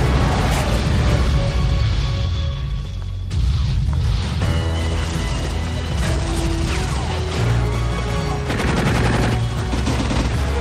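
Gunfire from a TV show plays loud and continuous, with dense bursts of shots and rattling mechanical clatter.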